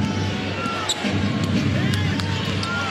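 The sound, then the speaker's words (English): A basketball bounces on the court during a professional game, its dribble thumps soft and partly buried under a dense, constant roar of crowd noise. “Fred VanVleet handling the rock. Front court. On the bounce, Van Vliet.”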